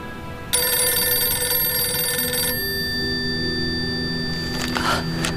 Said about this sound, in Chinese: 我接个电话。